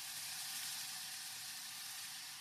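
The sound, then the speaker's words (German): Bacon sizzling as it goes into a very large cooking pot over high heat, a steady, even hiss of frying fat that continues unbroken with no talk. “Jetzt kommt schon direkt der Speck dazu.”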